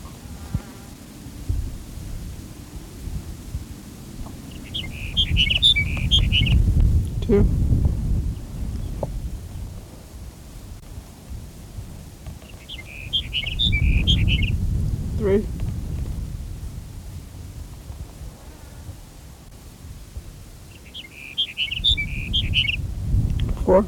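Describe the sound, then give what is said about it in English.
Sage Sparrow song: three short, high, tinkling phrases spaced evenly apart, each a brief cluster of thin notes over a steady low rumbling background. “Here's Sage Sparrow number 5”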